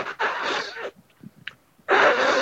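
A long, loud breathy inhale through the nose lasts nearly a second. A few faint puffs and clicks follow, then a strong, rushing exhale pushed out with the cheeks as part of a breathing technique demonstration.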